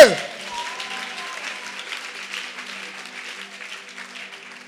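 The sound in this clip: Congregation at a worship retreat applauding and cheering for God: a loud burst of dense clapping mixed with shouting voices, which gradually eases to a softer, steady patter.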